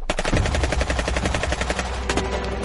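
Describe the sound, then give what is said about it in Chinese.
Dense, rapid gunfire as soldiers shoot at a crowd of residents charging toward a school gate: continuous, overlapping bursts of loud shots with no pause, like sustained machine-gun fire, and no voices. “密集的枪声响起”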